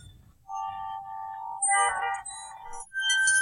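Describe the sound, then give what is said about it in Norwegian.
Electronic music and sound effects from the video game Grand Theft Auto San Andreas: sustained synthetic tones and bright chime-like notes that shift and layer in a few bursts, with no voices. “Dette er Grand Theft Auto San Andreas.”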